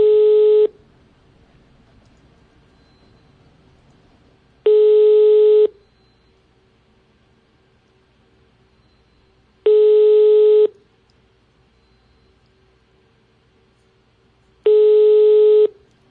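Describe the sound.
Ringback tone of an unanswered phone call to a health official that goes to voicemail. Four evenly spaced tone bursts, each about one second long and roughly five seconds apart, loud and clear with near silence between.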